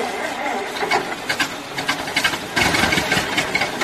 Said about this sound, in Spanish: Así es como suena el motor de tu vehículo con una bujía Denso. Así es como suena el motor de tu vehículo sin una bujía Denso.